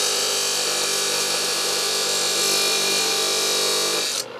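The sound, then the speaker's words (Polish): An angle grinder cuts scrap steel leaf springs into pieces for making axes, giving a loud, continuous, high-pitched grinding hiss and whine that holds steady for several seconds and then drops off sharply near the end, with no voices. “Ze złomu resory ucinam, puszczam szlifierkę. O. I tnę na kawałki do siekier.”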